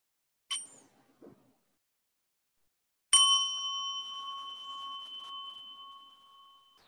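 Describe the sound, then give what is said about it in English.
A bell rung during a mindfulness meditation: a soft metallic clink and faint tap come first, then after a pause one clear bell strike rings out and its bright, sustained tone slowly fades over several seconds. “feeling our hands, feeling our face as we listen to the sound of the bell.”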